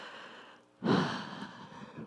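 A single soft breath, a sigh-like intake of air that starts abruptly partway through and trails off slowly. It is quiet and stands alone, with no speech.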